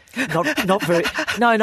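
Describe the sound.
A voice imitates heavy panting breathing with a rapid, even series of short, breathy voiced huffs, then closes on a longer sustained breath.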